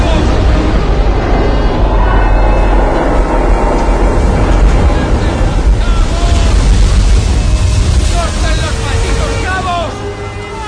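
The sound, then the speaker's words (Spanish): Ocean waves crash and wash over the upper deck of a boat listing to port, a loud, unbroken roar of churning water and wind, with indistinct voices in the mix. “Las olas baten la cubierta superior escorada a babor.”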